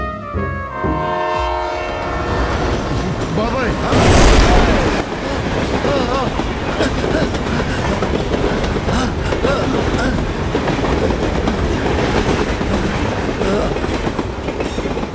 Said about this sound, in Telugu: Train ఎలా వచ్చింది?